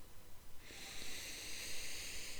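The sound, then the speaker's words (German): A deep breath drawn in through the nose during a guided breathing exercise: a soft, steady airy hiss that begins after a short quiet moment and carries on evenly to the end. “Atme noch mal tief durch die Nase ein”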